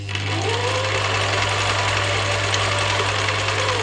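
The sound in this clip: A home sewing machine rattles in a living room turned into a sewing atelier, a continuous, loud mechanical whir with a steady low hum and rapid chattering throughout.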